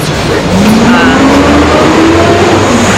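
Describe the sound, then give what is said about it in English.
A large truck driving past, giving a loud, steady roar with a low engine drone that slowly rises in pitch. “As the large truck goes by.”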